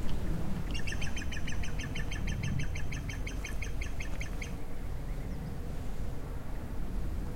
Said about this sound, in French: Qu'est-ce que c'est ? Un merle.